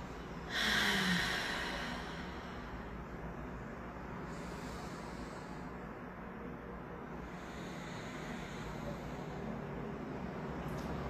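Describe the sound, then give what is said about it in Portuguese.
Deep breathing in and out through the nose during a guided relaxation produces soft, airy rushes. One fuller breath stands out at the start, and fainter breaths follow over a low, steady background. “Respira profundamente com o nariz, trazendo todo o ar para dentro. E solta também pelo nariz todo o ar que entrou.”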